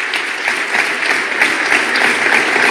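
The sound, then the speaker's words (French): Audience applause on a presidential election first-round evening: dense, steady clapping from a crowd that holds an even, fairly loud level throughout, with no voices standing out. “Merci à toutes et tous ce soir, une fois encore, de les applaudir.”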